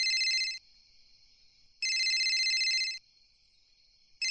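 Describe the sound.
A telephone rings for an incoming call: a few loud bursts of high, warbling electronic ringing, each about a second long, separated by quieter sustained tones, repeating in a regular cycle.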